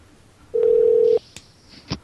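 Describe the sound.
A telephone is dialed: a steady mid-pitched tone of about half a second, followed by a few sharp clicks and short, higher beeps.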